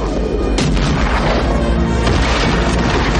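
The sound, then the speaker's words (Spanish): French artillery pounding a wooden-walled fort on a hillside during a battle, a dense, continuous roar of cannon fire with a couple of sharper booms cutting through the heavy rumble. “artillería francesa dispara contra una fortificación amurallada en madera situada en una colina.”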